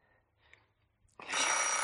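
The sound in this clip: A telephone bell rings out loud and bright after a quiet, nearly silent stretch, its metallic clatter sustained to the end.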